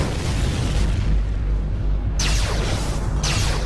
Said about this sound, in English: They're shooting at us.